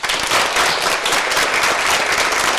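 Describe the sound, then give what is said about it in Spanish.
Classroom of pupils applauding a new classmate: a dense, loud burst of many hands clapping, steady throughout with no voices over it. “Hoy tenemos un nuevo compañero, lo cual es una alegría para todos. Y vamos a recibirle con un aplauso.”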